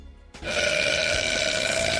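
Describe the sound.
A long, loud burp from a woman that starts abruptly and holds as a continuous, rasping sound for well over a second, with no talk over it.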